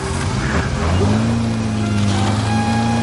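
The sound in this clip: A car starts off, its engine note climbing as it pulls away and then settling into a steady hum.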